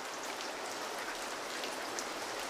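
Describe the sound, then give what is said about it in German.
Steady rain makes a continuous, even hiss of falling drops. It stays quiet and unchanging throughout, with no voices. “Es regnet.”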